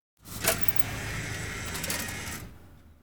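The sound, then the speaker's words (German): A ticket vending machine prints a ticket: one continuous mechanical whirring buzz of about two seconds, fairly faint, with a brief louder click near the start before it stops. “Dann druckt der Automat meine Fahrkarte aus.”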